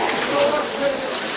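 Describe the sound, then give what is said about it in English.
A fire hose sprays a fine stream of water onto boxcar windows, a steady rushing hiss of spattering water with no pause. “Later, Schindler guides two prisoners as they aim a fire hose at the boxcar windows. The fine spray soaks the grateful prisoners inside.”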